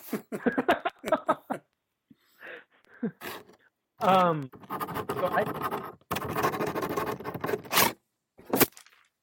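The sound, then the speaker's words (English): A pen scratches loudly across paper while someone writes, giving several rough, rasping bursts of scraping between stretches of a man's talk. “What was that? Oh, I was writing something. I didn't know you heard that. Yeah, that was very loud.”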